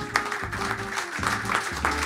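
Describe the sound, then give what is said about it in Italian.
Steady applause from an audience in the hall at a stand-up comedy night, the crowd clapping for itself. The clapping holds at an even level throughout, with a low sustained tone underneath. “un saluto al pubblico in sala che si autoapplaude”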